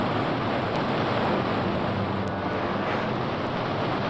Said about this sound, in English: Listen, that roar. Is it a waterfall?